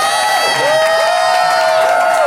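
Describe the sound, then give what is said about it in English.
A live audience in Phoenix votes on a debate by applauding and cheering. Sustained clapping blends with loud whoops and shouts throughout, strong and continuous. “Strong applause there.”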